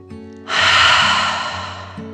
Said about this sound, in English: So the dragon took a deep breath in and out.